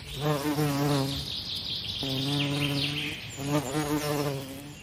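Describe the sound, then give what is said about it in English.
A swarm of mosquitoes buzzes in a rainforest in three droning, humming passes, each about a second long with a steady pitch, at moderate loudness and with no voices. “Mozzies, run!”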